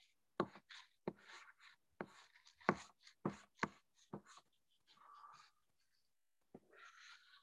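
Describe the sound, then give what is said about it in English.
Handwriting while working out a math equation, short scratchy pen strokes in quiet, irregular bursts, then a pause before a final few strokes. “And let me just write down this trick.”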